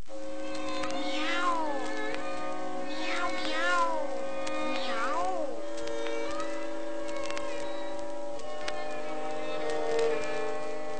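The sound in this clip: A cat meows in a children's tale, giving a few rising-and-falling meows over a steady tonal background, fairly soft throughout.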